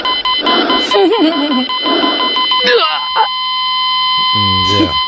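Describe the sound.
A cardiac monitor machine beeps in short, even pulses, then holds a long steady tone. A voice talks over the opening beeps.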